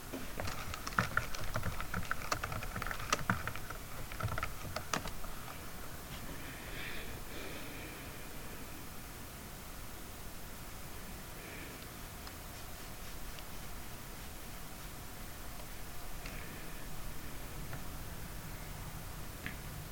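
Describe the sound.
Rapid typing on a computer keyboard as a Google search is entered, with dense clicking keystrokes for the first few seconds, then sparser, quieter taps over a steady low background hiss, with no voices.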